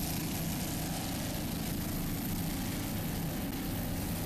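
A 36-foot Skater racing powerboat, number 69 Supercat Light Showtime, powered by twin Mercury 525-horsepower inboard engines, gives a continuous, loud engine roar that holds steady without a break.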